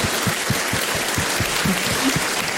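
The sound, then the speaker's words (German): An audience applauds a performer after a thank-you, a steady wash of hand claps with regular low thumps running through it. The sound stays even in loudness for the whole stretch. “Das ist dein Applaus, Casey.”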